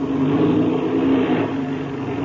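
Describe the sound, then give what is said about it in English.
A light aircraft engine runs while taxiing across a field, giving a steady, fairly loud droning roar with little change in level and no voices over it. “Oh, you're not even going to be able to get there without using your engine. Yes, yes, I'll have to give it a burst or two, all right.”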